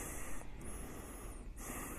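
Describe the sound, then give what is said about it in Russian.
Ujjayi breathing in a yoga class: a faint, throaty, rasping airflow that runs steadily, with a brief change in texture midway. “Дышим Уджхая, дышим, вдох, выдох.”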